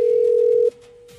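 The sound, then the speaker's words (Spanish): A telephone line tone sounds as a call is placed: a steady, loud mid-pitched tone holds for about 0.7 seconds, then cuts off, leaving only a faint hum with no voices. “Estamos marcándole a Alexis que dijo que lo llamáramos.”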